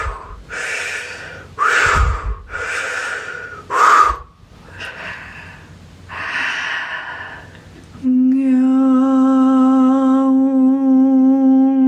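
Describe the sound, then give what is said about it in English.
Several slow, breathy inhale-and-sigh sounds during a guided healing meditation, followed by a steady, resonant harmonic tone that sustains to the end. “Deep breath.”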